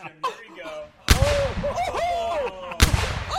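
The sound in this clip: A T-shirt cannon fires merchandise in two sharp, loud blasts, one about a second in and another near the end, with excited voices calling out between them.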